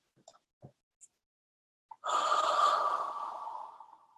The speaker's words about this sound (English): So just take a deep breath to physically relax your body.